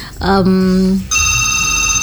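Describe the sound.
A telephone rings for an incoming call to a dangdut radio show. Short electronic tones sound first, followed by a steady, bright ringing tone that runs to the end.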